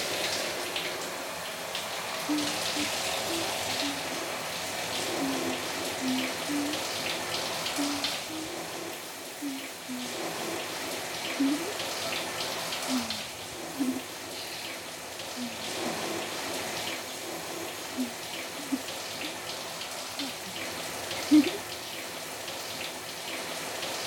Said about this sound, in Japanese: 大丈夫かな、流しちゃうね。いくよ。